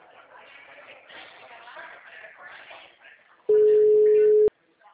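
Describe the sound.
A telephone busy signal on a call to a number that does not answer: a stretch of faint murmuring noise, then one loud, steady tone lasting about a second, cut off into near silence.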